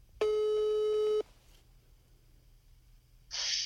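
A steady telephone ringing tone is heard while a call is placed. It is one long, even, buzzy tone lasting about a second, then quiet.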